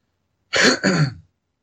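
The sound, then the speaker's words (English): A short cough in two rough, throaty bursts close together, harsh like clearing the throat, heard alone without talk. “I had a thought and then I lost it because I coughed.”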